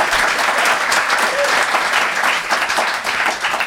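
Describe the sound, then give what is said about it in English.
Studio audience applause on a comedy panel show, voting for a winning case: loud, dense clapping that continues steadily for several seconds. “if you think they made the best case, please applaud now.”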